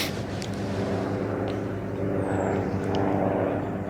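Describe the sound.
An airplane flies over a cemetery, giving a steady, broad engine drone with a low hum that stays fairly constant and loud throughout.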